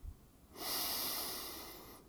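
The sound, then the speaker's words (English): A person breathes in deeply: one long, airy inhalation lasting about one and a half seconds, steady and soft, heard alone without any talking. “Listen to your breath. Breathe in”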